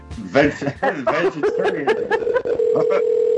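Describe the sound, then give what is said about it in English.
A steady telephone line tone plays while a caller waits for someone to answer. It starts faint under chuckling and talk, then holds loud and even through the final second as people talk and laugh. “Are they ever going to answer the fucking phone?”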